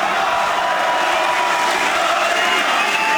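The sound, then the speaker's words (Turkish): A crowd cheers in an AK Party rally hall around Erdoğan's speech, a dense, continuous roar of many voices that stays level and unbroken throughout. “Salonda coşku had safhadaydı. Başkan Erdoğan kürsüye çıktı. Konuşması sık sık tezahüratlarla kesildi.”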